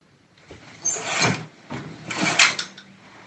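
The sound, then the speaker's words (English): Curtains being drawn open and then closed, two soft swishing rushes of fabric sliding along a rail, each lasting under a second and moderately loud against quiet. “Opening and closing curtains.”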